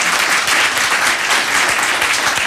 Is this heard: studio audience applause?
yes